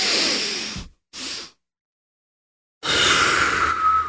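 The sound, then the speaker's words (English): Deep diaphragm breathing with the chest expanding: a long breathy rush of air, a short second breath, a silent pause, then another long, loud stretch of breath. “and I'll take that second breath in on top of it. So when I take that breath, I'll bring my shoulders back. So I'll really expand my chest, but it's a diaphragm breath”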